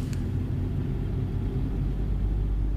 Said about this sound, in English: We drove into the industrial estate.